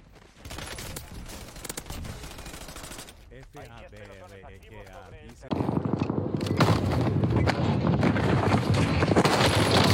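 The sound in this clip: Video game gunfire in rapid automatic bursts at the start, then a lull where a voice cuts in, followed by loud, dense, sustained shooting to the end.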